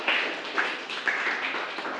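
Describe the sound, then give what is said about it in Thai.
Students in a classroom clap for a classmate after a group presentation, with moderately loud claps in a loose rhythm that keep going across the whole clip. “ปรบมือให้กับเพื่อนหน่อยนะครับ”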